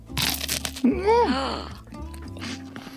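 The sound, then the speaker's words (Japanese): Crisp crunching of a bite into a crunchy karinto manju, a brown sugar bun, with a few loud crackling bursts and a voiced murmur between them. “もうねかりんとう饅頭持った瞬間のこのカリカリ感すごいんすよね、うん、うわじゃあ早速あこのいい香り黒糖の香りがたまんないです。いただきます。”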